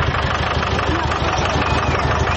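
A car engine running steadily, a continuous loud rumble without pauses or changes in level.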